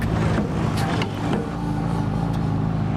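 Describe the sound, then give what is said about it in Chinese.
A car drives off in a hurry toward a wilderness area, its engine a loud, steady rumble with road noise throughout and no voices. “白菊急得开上车就往博拉木拉里钻”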